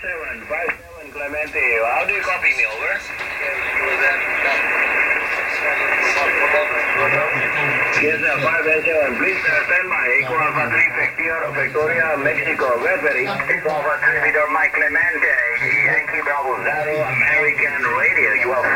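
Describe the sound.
Loud amateur radio receiver tuned to the 20-metre band at a field camp station in Päijät-Häme, antenna turned east, carrying a strong distant signal: continuous narrow, band-limited voices with steady hiss, filling the whole clip.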